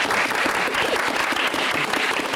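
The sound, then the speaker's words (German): Audience applause at a presentation, a dense, steady wash of clapping that holds evenly through the short stretch without pauses or standout voices. “Also da will ich einfach einen Applaus mal für Sarah.”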